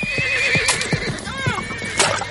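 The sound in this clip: Horses neigh and whinny amid a chaotic mock battle. Shrill, wavering calls rise and fall in pitch over a busy, steady background of thuds and commotion.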